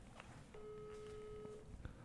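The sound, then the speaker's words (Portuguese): A phone call ringing out unanswered: one long, steady ringback tone, quiet and lasting about a second, over a low background hum. “Deixa eu ligar.”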